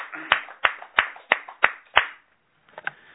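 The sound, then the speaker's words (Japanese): Hand claps at a morning church prayer gathering celebrating wedding anniversaries: six sharp, evenly spaced claps in a steady rhythm, then a brief pause and a few softer, scattered claps. “皆さん盛大な拍手でお願いします”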